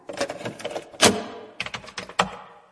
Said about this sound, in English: I shall play the tape for you.